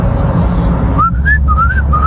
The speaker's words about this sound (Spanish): Yo creo que ya ahora algo me dice que conoces el silbido